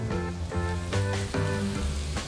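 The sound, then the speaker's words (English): Chicken sautéing in a pan after a pinch of salt and pepper, giving a steady, even sizzle that holds at a constant level throughout. “So we're going to let this saute up. Get a little bit more cooked.”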